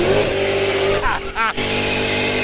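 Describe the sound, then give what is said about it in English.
Car tires squealing during a burnout while doing donuts: a loud, continuous roar of engine and spinning rubber, broken briefly by a wavering squeal before the steady roar resumes. “You burned about an inch of rubber off there.”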